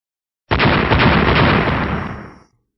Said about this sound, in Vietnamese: rồi ầm ầm nổ tung, vô số tia sáng bắn ra, lập tức như nuốt sống cả đám.